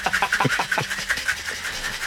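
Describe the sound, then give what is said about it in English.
A cocktail shaker rattles as an espresso martini is shaken with ice, making fast, even scraping bursts that repeat many times at a quick, steady rhythm. The sound is fairly quiet, with no voices. “He's shaking it, obviously. That's what that noise was. Yeah. That's a cocktail being made live on the radio.”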